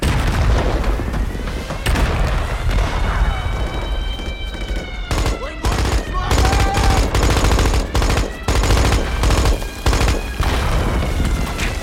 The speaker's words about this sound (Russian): Охранники тут же открывают стрельбу по сбежавшим.